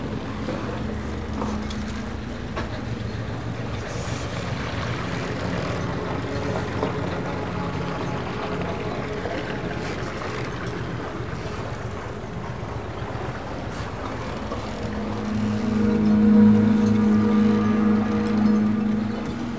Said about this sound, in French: Le son de la mer et des hommes.